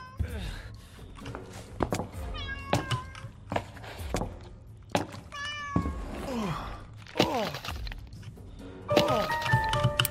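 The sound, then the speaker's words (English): A cat meows in a video game set during the Second World War: a string of clear, harmonic meows that rise and fall, with a few soft taps and thuds between them. “This cat seems to be helping me.”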